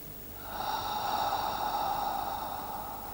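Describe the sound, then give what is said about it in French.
A gentle voiced exhale in a breathing exercise, like fogging a window pane: a soft, steady breath carrying a faint hum, rising in quickly and holding for about two and a half seconds before easing off. “Maintenant, tu vas sonoriser le souffle sortant très légèrement, comme on souffle de la buée sur une vitre.”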